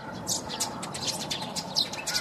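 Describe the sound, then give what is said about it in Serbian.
Sparrows chirping among tree branches on a sunny morning: many quick, high twittering chirps, fairly faint over a steady background hiss. “Umesto buke, vrapčevo cvrkutanje.”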